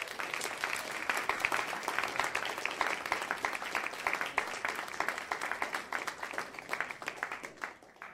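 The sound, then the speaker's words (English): Audience applause welcomes a speaker to the stage at a storytelling event. Many individual claps stay distinct within a lively, fluctuating patter that lasts about eight seconds and thins out at the end. “Please put your hands together and welcome Charlotte to the stage.”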